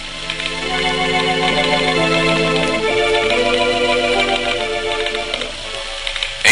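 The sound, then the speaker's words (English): A Morse telegraph instrument clicks rapidly and steadily. It is the first instrument to send and receive, built by Samuel Morse in 1838 in his rooms at the College of the City of New York. The clicks sit over a sustained tonal hum. “The first telegraph instrument to send and receive, built by Samuel Morse in his rooms at the College of the City of New York.”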